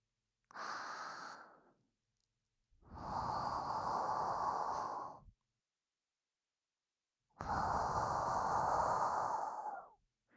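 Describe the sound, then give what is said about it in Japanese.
Slow, soft exhaling breaths, three in all, each a hushed airy rush separated by silence. The first is short, and the next two are long and drawn out, easing off at the end. “音が強くて目を覚ましちゃうかもだし、ここは息を吐く感じで”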